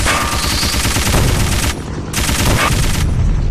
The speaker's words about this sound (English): Ooh, he's shooting a machine gun at me.